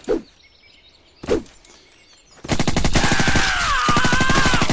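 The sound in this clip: Machine gun fire in a video game: two isolated single shots are followed by a sudden, continuous, rapid rattle of loud automatic fire with thin whining tones drifting above it.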